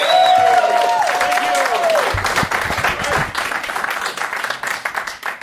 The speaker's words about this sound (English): Give it up for Klaus and Matthias one more time, everybody.